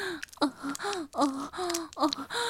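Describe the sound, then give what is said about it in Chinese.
A man panting and gasping in a string of breathy, voiced bursts, each with a short rising or falling strained tone, repeating in an uneven rhythm with no other sound. “一边还发出没有用的喘息声”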